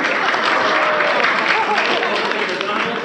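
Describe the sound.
Dense, steady applause from a game-show audience welcomes a local defending champion contestant and finalist. The clapping stays full and even throughout, with voices mixed in.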